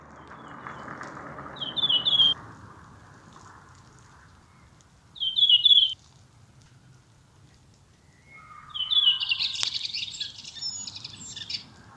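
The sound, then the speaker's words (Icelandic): Thrush song at Seltjarnarnes, Iceland: three separate bright, whistled phrases, the first two short and the last longer and busier, fairly faint above a steady low rumble. “Þessi þröstur sleppir fyrsta atkvæðinu, þannig að bíðum verður að bíðum.”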